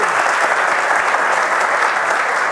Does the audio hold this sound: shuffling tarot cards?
no